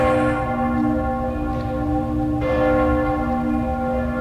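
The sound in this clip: Church bells of Cologne Cathedral ring out in long, sustained, humming tones, with a fresh strike sounding about halfway through.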